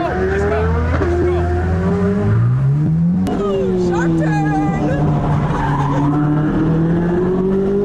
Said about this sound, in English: 132 miles per hour in the Corvette. Yeah. In the Corvette. Are we in the white? Yeah, we're in the white. Are you ready? Let's go!